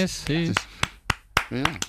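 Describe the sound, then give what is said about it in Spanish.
A professional applause starter claps to get an audience going: several sharp, single hand claps in a slow, steady rhythm, alternating with bursts of speech. “Aplauso, todos se van sumando. Y se van sumando, es verdad, ¿eh?”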